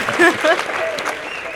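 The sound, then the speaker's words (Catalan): Applause from an audience in a steady, dense wash of clapping, with a brief voice at the start. “Ara esperava els aplaudiments, jo.”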